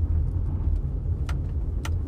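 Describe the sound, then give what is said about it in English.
A pickup truck engine runs with a steady low rumble, broken by a couple of brief, sharper higher-pitched rattles. “I hate this fucking truck.”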